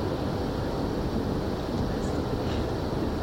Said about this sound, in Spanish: Se cogen el tren y se van.